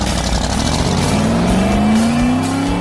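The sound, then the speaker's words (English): A 1965 Shelby Cobra race car accelerates hard, its loud engine note climbing steadily in pitch without a break. “Now holding at pole position, going pedal to the metal, behind the wheel of this 1965 Shelby Cobra,”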